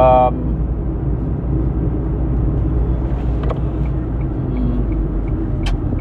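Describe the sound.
Car driving along a road, a steady low rumble of engine and road noise that continues throughout, with a few faint, brief higher tones.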